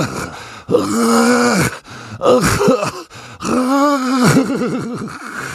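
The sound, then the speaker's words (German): Horrible drawn-out groaning coming from under a bed: a few long, deep, voiced moans with wavering pitch, separated by brief breaks, loud and with no words. “Was war das? Woher kam dieses grässliche Stöhnen? Jetzt war er sicher. Da war etwas unter seinem Bett.”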